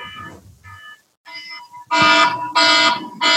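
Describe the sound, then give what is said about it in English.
An alarm goes off with loud electronic beeping in repeated bursts, preceded by softer tonal notes. The pulses are evenly spaced and sound alone, with no talk. “That's my alarm. I gotta go flip the packs.”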